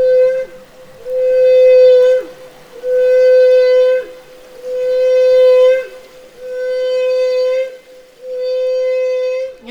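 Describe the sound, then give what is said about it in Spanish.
Humpback whale song off Chile: five long, steady, mid-pitched moans with rich harmonics, each held for over a second with short gaps between them, some ending in a quick pitch bend. “Ballena.”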